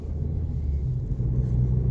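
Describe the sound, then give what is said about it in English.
A car driving, with a steady, low rumble of engine and road noise that holds even throughout with no other sounds. “I'm just driving now again.”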